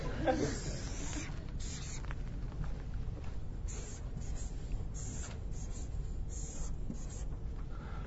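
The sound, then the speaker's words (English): A marker draws a big black line on a whiteboard with a continuous squeaky, scratchy rubbing. The strokes carry on steadily for several seconds with brief breaks and stay at an even, moderate loudness. “I'm going to draw this enigmatic diagram, which you have to annotate.”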